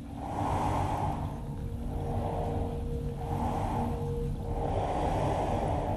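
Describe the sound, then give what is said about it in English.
A drain on the bank of the tidal Thames makes slow, rhythmic rushing surges as water moves in and out, so it sounds like deep breathing. The swells rise and fall over a steady low rumble. “the sound of a drain on the bank of the Thames. And the Thames is super tidal, so as it rushes in and out, in this particular instance, this drain sounded so strongly like it was breathing.”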